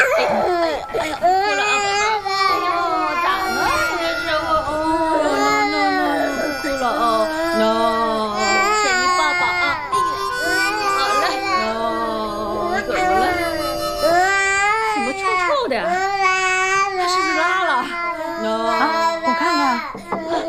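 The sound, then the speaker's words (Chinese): A baby cries in repeated wailing bursts for around twenty seconds, with an adult talking over it. “哦，宝贝儿啊，不哭啊！”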